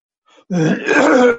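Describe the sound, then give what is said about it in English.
A throat clearing to clear phlegm: a brief, faint catch, then a loud, voiced, gravelly rasp lasting about a second and ending abruptly. “Just phlegm, don't worry.”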